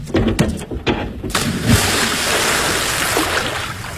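People splash into water as they go for a swim: loud splashes and sloshing at first, then a steady churning wash of water.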